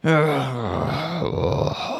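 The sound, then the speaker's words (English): A voice imitates a deep, drawn-out groan, loud and sustained for about two seconds, its low moaning pitch sagging early and then wavering without any words. “Like Lurch of the Addams Family. We're groaning.”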